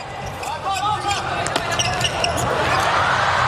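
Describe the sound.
A table tennis serve in a match against a Japanese team gives a few sharp ball taps over steady background noise.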